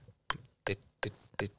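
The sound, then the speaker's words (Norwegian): A metronome ticking at 165 beats per minute: four crisp, evenly spaced clicks, each with a short decay, sounding alone at a moderate level. “Og så finnes jo disse metronomene da. Ja, tikk, tikk, tikk, tikk. Sånn som dette. Dette er 165.”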